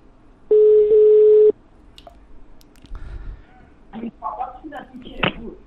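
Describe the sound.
A telephone is dialed: one steady electronic tone holds for about a second, then a scatter of soft, irregular taps and clicks follows.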